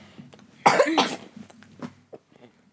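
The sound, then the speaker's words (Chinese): A throat being cleared in one forceful, rasping burst, followed by a few faint short sounds. “你先先清个喉咙，因为有痰痰音。”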